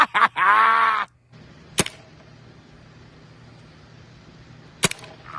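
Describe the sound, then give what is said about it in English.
Sharp pops of a paintball gun firing at a person, with two distinct loud cracks standing out well apart over a low, steady background hum. “One of the most requested items, a paintball gun. And we're going to do it for Old Glory and the boys for Memorial Weekend. Let's have some fun.”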